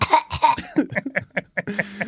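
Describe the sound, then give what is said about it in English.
Rapid, harsh coughing from someone caught in a dusty space, a quick series of many dry bursts, fairly loud and uneven in rhythm, with no talking between them. “And there's lots of dust, and I'm coughing.”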